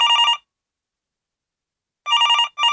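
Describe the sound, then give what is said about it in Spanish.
A telephone rings for an incoming call in three short bursts of bright, rapidly trilling bell tone, separated by a long silent gap and then a brief pause. “¡Uy! Tenemos una llamada.”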